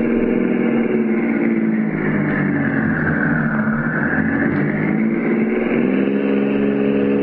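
A car engine drones steadily as the vehicle drives around the block, a loud, continuous mid-pitched rumble with gentle swells and no voices.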